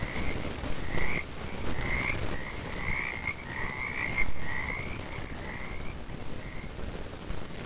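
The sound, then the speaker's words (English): Frogs croaking in a steady chorus, with many chirpy, trilling calls repeating in uneven bursts over a constant hiss-like background. “And you can fall asleep to those frogs every night like we do.”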